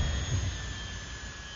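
Steady rushing roar of a spaceship entering the atmosphere to land, with broad hiss over a deep rumble, holding level throughout with no voices.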